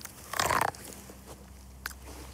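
A bite into a corn cob that looked dented at the top gives one loud, crunchy burst, followed by a few faint smaller sounds.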